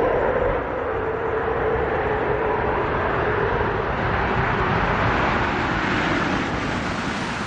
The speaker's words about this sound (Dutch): Main gear touchdown.